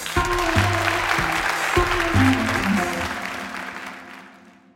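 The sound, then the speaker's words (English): A live studio audience in Minneapolis applauds guest presenters on a competition show. Dense, even clapping holds strong at first, then gradually fades toward the end. “Can we give one more hand to all our guest presenters tonight?”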